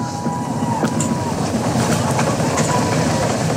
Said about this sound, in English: the RS-25's throttling back up to 109% thrust capacity.